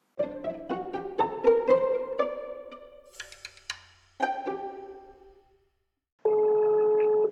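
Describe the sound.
Telephone call tones ring out as a run of clear electronic beeps stepping through different pitches, fading into a short silence, then one loud, steady tone holds to the end.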